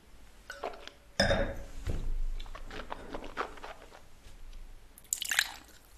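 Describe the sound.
Wet slurping sips of a bone-dry wine at a tasting, drawn from a glass. A sharp slurp comes early and another near the end, with soft mouth sounds between them.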